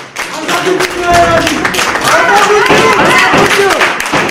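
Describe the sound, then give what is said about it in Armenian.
Applause and clapping fill a courtroom as detainees are greeted, with raised, shouting voices ringing over a steady, loud wash of hand claps throughout. “այսօր դատական նիստերի դահլիճում ծափողջություններով դիմավորեցին”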